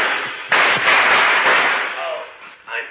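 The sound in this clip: A gunshot in a radio drama opens with a sudden sharp blast and a long hissing decay. A second, shorter burst follows near the end.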